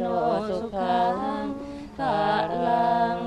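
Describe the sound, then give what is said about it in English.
Thai Buddhist monks chant a blessing for donors kneeling with heads bowed while the monks collect alms house to house: sustained, low, droning group voices in a few long phrases separated by short breaths. “And the chanting you hear, that's a blessing for the donors who are kneeling on the ground with their heads bowed.”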